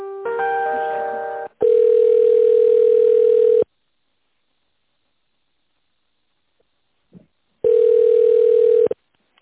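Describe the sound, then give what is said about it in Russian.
A telephone ringback tone plays while a call is being connected. A buzzier multi-toned beep comes first, then steady mid-pitched tones of about two seconds and just over a second, separated by a long silence. “Соединяюсь с тендерным отделом.”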